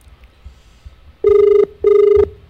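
A telephone ringing on a call to the Rural Health Unit in Alcoy: two long, loud ring tones with a buzzing, steady pitch, separated by a short gap after a quiet stretch.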